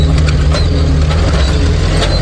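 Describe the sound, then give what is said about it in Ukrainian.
A French Caesar eight-wheeled self-propelled artillery vehicle drives off kicking up dust, giving a steady, loud, deep engine rumble mixed with mechanical rattling that holds level throughout. “Французький «Цезар» на 8 колесах виграбе звідусіль. «Цезар» поїхав на роботу, зараз піднімає куряву і несеться.”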